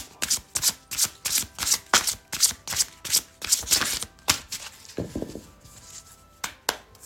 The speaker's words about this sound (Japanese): 今日も日本の神仏カードと正弦タロットカードと友人カードでですね、引いていきたいと思います。